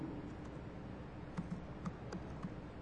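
Typing on a computer keyboard to enter text into a web page: soft, irregular key clicks that come faster in the second half.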